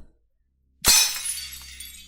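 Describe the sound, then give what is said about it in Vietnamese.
Something breaks and shatters in one sudden crash after near silence. Bright, crisp debris rings and scatters, then fades over about a second. “Có tiếng đổ vỡ làm cả bọn giật mình hoảng hốt.”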